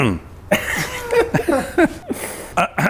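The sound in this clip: Coughing and throat clearing come in several short, voiced bursts separated by brief pauses, fairly loud and without other sound.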